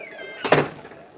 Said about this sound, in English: Shut the door behind you. Instead of standing there like an idiot.